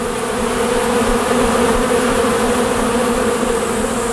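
Honey bees buzz at the entrances of four hives in a dense, steady drone that stays loud and even throughout, with no voices.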